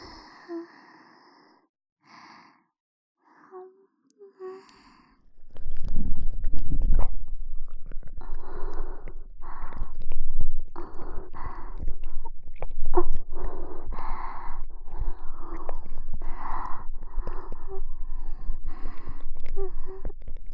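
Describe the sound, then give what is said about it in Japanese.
Tongue licking and wet mouth sounds of slow ear licking. A few soft, scattered breaths and mouth noises come first, then a long, dense run of slurping, clicking and smacking sounds that continues to the end. “私の舌を差し入れて、ねっとりと舐めさせていただきます。”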